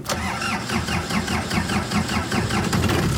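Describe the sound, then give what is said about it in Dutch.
An old, rusty, army-green 1988 Land Rover off-road vehicle's engine is starting, producing a loud, steady, rhythmic chugging that repeats evenly through the whole clip with no voices. “Ze hebben de roestige Land Rover een naam gegeven. Hij heet Felix. Felix. Als hij start, kan hij levens redden.”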